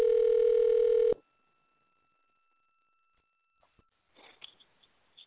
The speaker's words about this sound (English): Note to self, do not talk and dial at the same time. Good note. All right, and we're dialing.